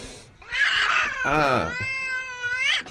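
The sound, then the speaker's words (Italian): A pet cat meowing: one long, wavering meow whose pitch shifts up and down, fairly clear against a quiet background, with no talk. “Un bambino? È il gatto di Grillo.”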